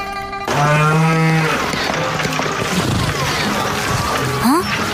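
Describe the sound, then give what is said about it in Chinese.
A calf moos in a low, drawn-out call lasting about a second, set among busy background sounds and sharper noises. “小牛犊，你是要带我走吗？小牛犊，你要带我去哪儿呢？”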